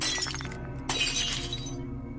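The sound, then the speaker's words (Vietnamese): Glass shatters as candles are knocked over by a mourning curtain: a loud, bright crash of breaking glass, a second burst of scattering shards, then a fading tail. “Mấy ngọn nến để gần đó cũng bị cái rèm tang nó hất vỡ đánh choang, làm cho bà giật mình.”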